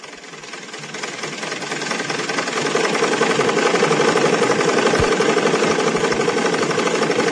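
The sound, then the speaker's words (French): A sewing machine used for home tailoring runs with a rapid, continuous mechanical rattle. It grows slightly louder over the first few seconds, then holds steady and fairly loud, with no voices. “Il y en a à qui ce petit bruit rappelle beaucoup de choses. Beaucoup d'enfants ont été bercés par le bruit de ces machines à coudre dans certaines banlieues,”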